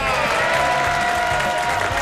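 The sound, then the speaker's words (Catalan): A studio audience cheers and applauds in euphoria over Barça's football success, a loud, dense burst of clapping with excited shouting voices mixed into the din. “Però què és aquesta? Eufòria desfermada entre el públic del programa.”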